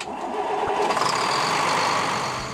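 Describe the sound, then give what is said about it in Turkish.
Starter motor cranking an engine after a loose spark plug cable was refitted, giving a steady, mid-pitched churning drone that holds evenly for over two seconds with no voices. “Bir daha bas marşa.”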